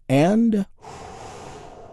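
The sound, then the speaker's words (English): A long, deep breath drawn in during a guided relaxation exercise: a short voiced sound, then a soft, airy inhale that lasts over a second. “And we do this by taking a big, deep, healing breath all together. Here we go.”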